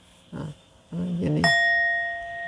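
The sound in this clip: A single struck bell used during a Buddhist dharma talk rings out after a few brief low vocal sounds, its bright metallic tone sustaining with clear overtones and slowly fading.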